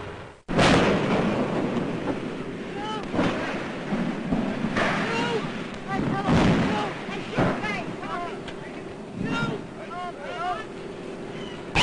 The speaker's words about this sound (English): you're about to see the pictures he got when the ship exploded. Those aboard leaping for life from a flaming inferno.